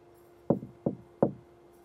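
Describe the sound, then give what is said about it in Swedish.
Three evenly spaced knocks sound on a hotel room door at the Park Lane Hilton in London, made by a cleaner at nine in the morning. The sharp raps are fairly faint, with quiet between them. “Klockan har precis slagit 9 på morgonen när en av hotellets städare knackar på dörren till rum nummer 2005.”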